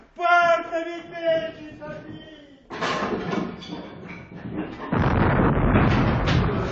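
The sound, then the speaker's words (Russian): Artillery shells explode nearby, first in rough booming and crackling bursts after a short stretch of voice. The bursts then swell into a dense, loud, continuous roar of blasts and rumble. “Снаряд! Разрывы где-то близко.”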